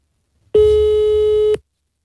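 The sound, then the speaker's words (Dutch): A telephone call tone sounds while someone is being phoned: a single steady, loud electronic tone holding for about one second, with a sharp start and stop and silence on either side. “Dan moet het geluid uit, want ik bel hem dan nu met mijn telefoon.”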